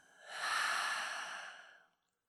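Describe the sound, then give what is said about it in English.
A single long, deep exhale during a guided meditation breathing exercise: a steady, airy rush of breath that swells quickly, holds for more than a second, then tapers off into silence, heard alone. “Let's go ahead and take another deep, deep, deep full breath. And let it out.”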